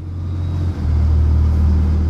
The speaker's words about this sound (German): Der Skipper drosselt den Motor des Schlauchbootes.